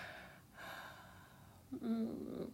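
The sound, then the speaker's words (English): A soft, breathy exhalation, faint and airy, drawn out for a moment before a slightly stronger, voiced breath near the end. “Let me just breathe across the tip.”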